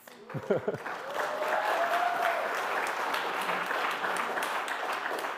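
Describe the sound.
Audience applause in a church setting, a dense steady wash of clapping that swells quickly after a brief voice and holds at an even level throughout.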